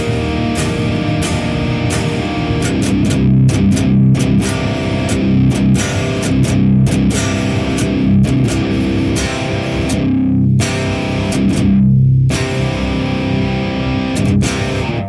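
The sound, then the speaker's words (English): An electric guitar runs through a Sound of Justice FX Klon-clone overdrive into an oversized Mesa cabinet, giving a thick, fat, driven tone. It plays a steady strummed riff with a few brief choked pauses near the end. “So the Sound of Justice FX Klon clone into an oversized Mesa cab. It sounds nice and fat, like this.”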